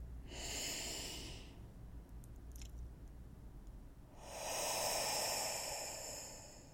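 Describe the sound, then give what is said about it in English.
Two slow, deep breaths taken during a guided breathing exercise. Each is a soft, airy rush lasting over a second, separated by a quiet pause, with no talk over them. “I'll ask you to take another deep breath with me.”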